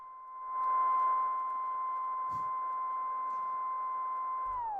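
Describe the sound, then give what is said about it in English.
A DVS timecode control vinyl record plays as a steady, piercing high tone with a fainter overtone. It holds evenly throughout, then drops in pitch at the very end as the record slows. “What this is a time code or like DVS record, however you want to call it. And what this is a control.”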